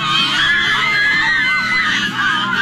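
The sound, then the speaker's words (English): Teenage fangirls squeal and scream together at an autograph signing, a dense, continuous, high-pitched crowd shriek that stays loud and steady throughout without pause. “Sorry for all the teenagers squealing”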